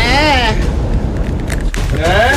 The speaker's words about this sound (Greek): Εδώ είναι το πίτε μπομ. Σταμάτα το χρόνο πριν σκάσει η βόμβα.